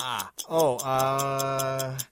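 A game show countdown clock ticks in rapid, evenly spaced clicks under a sustained, steady vocal tone from a person.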